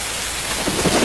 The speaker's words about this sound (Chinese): 这是风声，这是雨声，